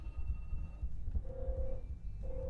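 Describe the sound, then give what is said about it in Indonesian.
A telephone rings with an incoming call to a radio studio, sounding as two steady, mid-pitched electronic tones separated by a short gap over a low background rumble. “Dan kita lihat ya, ternyata sudah ada penelpon nih. Jadi coba kita angkat dulu.”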